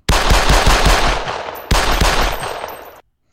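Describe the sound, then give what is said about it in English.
A Desert Eagle pistol gunshot sound effect: a rapid run of loud, sharp shots, then a second burst with a noisy, ringing tail that cuts off abruptly. “This one's a Desert Eagle.”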